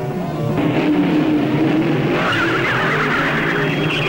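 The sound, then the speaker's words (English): A car engine roars and its tires squeal as it speeds away across a desert floor during a race. The sound is loud and continuous, with a shifting engine tone over a steady rush of noise. “But as Machine Gun Joe speeds away, more rebels detonate explosives planted in the ground, narrowly missing his car.”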